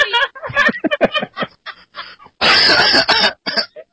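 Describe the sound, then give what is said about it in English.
Harsh throat clearing and coughing from a person trying to clear something stuck in the throat: a run of short rasping bursts, then one long, loud, gravelly burst in the middle, followed by a few brief hacks. “I gotta get this thing out of my throat.”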